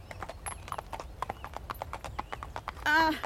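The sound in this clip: Hooves of a male horse walking on a ride across open land, a steady, even clip-clop of many crisp, regular beats with a low background rumble throughout.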